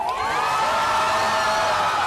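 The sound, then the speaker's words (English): A crowd in Tel Aviv cheers as Hamas releases Israeli hostages, many high voices whooping and shouting together in a loud, sustained roar that stays level from start to finish. “Cheers erupted in Tel Aviv as Hamas released three more Israeli hostages.”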